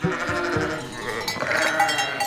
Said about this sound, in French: Derrière elle, c'est l'embouteillage. Les chèvres l'ont toutes suivie. Chacune veut sa glace et c'est la folie.